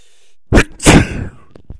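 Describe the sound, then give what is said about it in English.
A single loud sneeze from a person who is allergic to a friend's cat, with a sharp burst that swells into a longer, breathy explosion and then fades. “ever since he's been here, I can't stop sneezing.”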